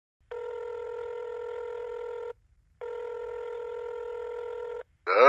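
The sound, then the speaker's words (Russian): Telephone ringback tone while placing a call: two long, steady, buzzing tones of equal length separated by a short silent pause. “нажал на вызов, предварительно откашлившись, чтобы голос не звучал сонно. Гудки шли долго.”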